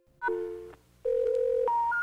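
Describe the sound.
Telephone keypad dialing at a corner market phone: a few clear electronic tones of differing pitch, each steady and separated by brief gaps, heard alone.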